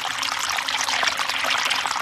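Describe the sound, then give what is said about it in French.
Spring water trickles and splashes in a steady, unbroken stream, bright and continuous, with no voices over it. “Il y a toujours de l'eau, hein. Toujours. Oui, c'est la source.”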